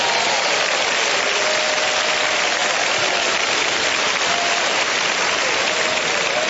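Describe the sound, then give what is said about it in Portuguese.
Congregation clapping hands during a church service, a dense, steady wash of applause that holds at an even level for the whole stretch without pause. “Pode dar glória a Deus, pode bater palmas para Jesus.”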